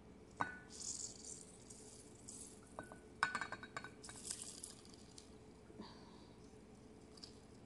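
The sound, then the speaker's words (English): Light clinks and rattles as something is put back into a bowl: a few faint, sharp taps and brief rattling knocks scattered across a quiet background. “So let me put that back in the bowl.”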